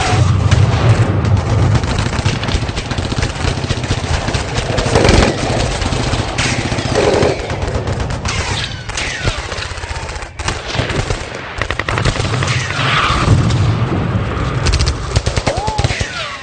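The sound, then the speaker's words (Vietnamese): Heavy gunfire from small arms and automatic weapons erupts in a firefight at a bridge, with rapid bursts of loud, crackling shots and booms running almost without pause throughout. “Đạn bay véo véo, tiếng ngói bể rủng rãng trên mái nhà, ở phía sau hàng rào.”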